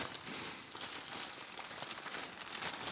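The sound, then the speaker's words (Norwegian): A small plastic bag crinkles continuously, a dense, crackly rustle that stays at an even level throughout, with no voices. “En liten plastpose, et kort.”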